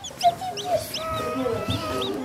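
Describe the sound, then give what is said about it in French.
Chicks, two of them black, peep and cluck in a scatter of high, arching cheeps. Softer low clucking tones sit underneath, with the loudest peeps near the start. “Oh, les poussins! C'est chouette. Oh, mais il y en a deux noirs!”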